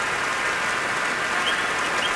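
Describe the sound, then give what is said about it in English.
A concert audience gives a standing ovation after a Munich Philharmonic Orchestra performance, a dense, even wash of clapping with no single claps standing out. “And I can tell you that has prompted a standing ovation from many in the audience here.”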